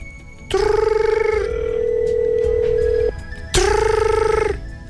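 An American-style telephone ringing tone on an outgoing call. Two loud buzzing rings are separated by a long pause, during which a lower, steady tone lingers.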